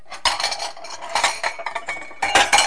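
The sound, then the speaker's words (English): A child plays with pans and a pot lid, making many irregular metallic clanks, bangs and clinks in quick bursts. After a short pause comes a final loud flurry of clattering. “You want a pan to play with too? Do you want one? Here, you can play with those two.”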